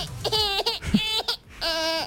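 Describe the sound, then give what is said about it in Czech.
A small baby's voice, likely a newborn niece or nephew, giving three drawn-out, high-pitched wailing cries separated by short pauses, each fairly loud and steady in pitch. “To je malé dítě.”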